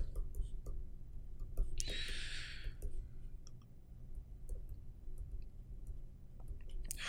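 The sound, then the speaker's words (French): Typing on a computer keyboard, with many light, scattered key clicks and a brief hissy burst, under a soft, low voice. “Je l'écris avec mon ordinateur, là, mais tu sais, vous, vous, pouvez l'écrire à la main aussi”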